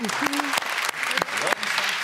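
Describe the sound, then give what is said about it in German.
Game show studio audience applauding, many hands clapping in a dense, continuous patter with a few sharper accents, while a voice briefly talks over it. “Wann hast du von deiner eigenen Frau das letzte Mal so viel Applaus gekriegt?”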